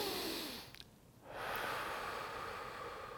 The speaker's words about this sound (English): Take another breath in. Take another breath in.